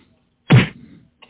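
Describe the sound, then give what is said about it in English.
Punch-in-the-face sound effect: a single loud, short thwack followed by a brief fading rustle. “A punch in the face.”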